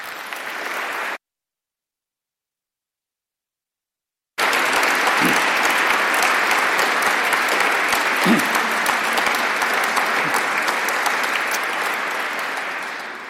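An audience applauds to welcome Sir John as he comes to deliver the 2017 One People Oration. A short burst of dense clapping cuts to silence, then loud, sustained applause resumes and fades slightly at the end.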